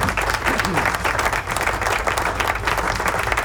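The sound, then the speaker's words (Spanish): Audience applause at a rock event, with dense, steady clapping that stays loud and even throughout. “Aplauso, ¿dónde están los aplausos?”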